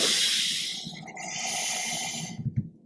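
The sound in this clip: A long, deep inhale during a guided slow-breathing exercise. It is a steady breathy hiss that lasts about two seconds, then a few soft, low puffs follow as it tapers off. No one speaks.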